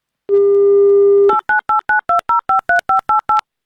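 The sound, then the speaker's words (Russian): A telephone dial tone sounds as radio hosts call a listener: a steady, loud tone holds for about a second, then a quick, evenly spaced run of short keypad dialing beeps follows. “Вот сейчас мы давайте звонить Нелли и спрашивать все детальнее, конкретнее.”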